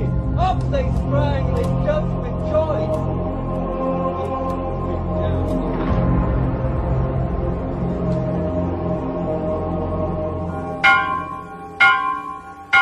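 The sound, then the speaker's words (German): Church bells ring with resonant, sustained metallic tones that linger under a steady hum, then a few sharper, louder strikes near the end. “In der frühen Christenheit ist das Glockenläuten Signal zur Abwehr heidnischer Dämonen.”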